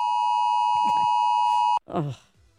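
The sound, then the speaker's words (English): A 2 o'clock alarm beeps as a steady, high, pure tone held for nearly two seconds before cutting off abruptly. Faint voices murmur over it, and a short voice follows. “Oh, that was that 2 o'clock alarm.”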